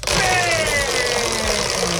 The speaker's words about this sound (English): big spin or a little spin to choose the category? Big spin, please.